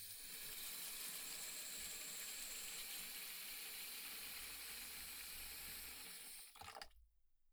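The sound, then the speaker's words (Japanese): Hot water pours steadily into a wash tub in a continuous, bright splashing stream that runs for several seconds, then cuts off abruptly near the end. “まずは、お湯を桶に。”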